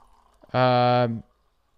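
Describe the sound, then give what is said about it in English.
Drip coffee is poured into a cup in one short, steady pour lasting under a second, which then stops abruptly. “let's pour some drip coffee as always. Let's give this a taste.”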